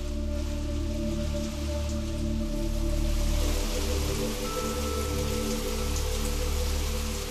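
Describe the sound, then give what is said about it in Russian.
Heavy rain downpour: a dense, even hiss of pouring rain that stays steady and loud throughout, with no voices. “Дождь рухнул с неба, как будто кто-то опрокинул катку с водой.”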